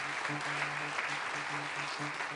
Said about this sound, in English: In fact, you can applaud here.